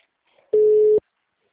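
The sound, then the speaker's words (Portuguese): A telephone tone after a dropped call: one steady, mid-pitched beep lasting about half a second, clear and alone against silence. “Caiu a ligação.”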